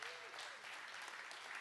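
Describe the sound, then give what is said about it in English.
A church audience gives God a hand clap of praise. The clapping is soft and continuous, a steady patter of many hands, with a voice faintly audible early on. “So let's give God a hand clap of praise for that.”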